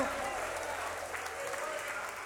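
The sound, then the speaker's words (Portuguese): A church audience applauds during a worship service with steady, dense clapping that keeps an even level throughout. It is fairly faint, and a voice can be heard over it. “Mais forte aplausos para o Senhor. Palmas e glória a Deus, igreja.”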